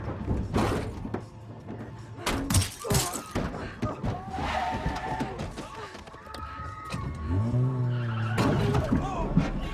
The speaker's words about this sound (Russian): Она его переезжает машиной.